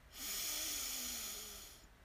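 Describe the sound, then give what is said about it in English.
One long, deep breath taken during a relaxation exercise: a steady, airy whoosh of about one and a half seconds that swells quickly and then slowly fades, heard alone without talk. “Deep breath in. And out. Get that stale air out.”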